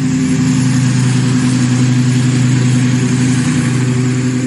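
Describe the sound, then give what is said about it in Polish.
Military drone engine with a small petrol-engine buzz like a lawnmower or moped, running loud and steady throughout with a constant, unchanging pitch. “Różnicą w porównaniu do wielowirnikowca jest dźwięk, który wydaje ten bezzałogowiec. Ten dźwięk jest zbliżony do pracy kosiarki spalinowej w ogródku albo motoroweru.”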